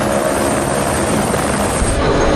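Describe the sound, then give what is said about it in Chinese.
A helicopter carrying engineering crew and equipment to a 4,200-metre site on Saishiteng Mountain gives off a loud, dense, steady roar of rotor and engine that holds constant throughout, with no voices. “田才让和邓礼才申请使用直升机，将工程人员和设备运到塞什腾山海拔4200米的 C 点”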